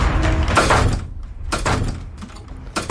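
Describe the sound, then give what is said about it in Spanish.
Doors are opened and shut one after another in quick succession. Several loud, broad knocks and bumps mix into one dense clatter at first, followed by a few separate sharper hits, with no voices. “Abro y cierro puertas desesperada una tras otra”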